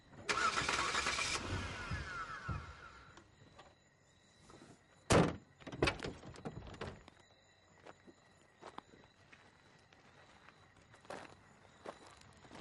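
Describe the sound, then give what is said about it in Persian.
Car engine being cranked during repeated start attempts: a short grinding burst at the start, then scattered sharp clicks and knocks with a couple of louder thumps midway, all fairly faint and without voices. “استارت بزن وایسا دوباره استارت بزن”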